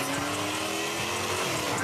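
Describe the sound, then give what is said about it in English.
Souped-up Dodge Charger racing through downtown Seattle streets at night: a loud, continuous engine roar that stays steady and unbroken throughout. “he's accused of racing his souped-up Dodge Charger through downtown Seattle at night when people are trying to sleep”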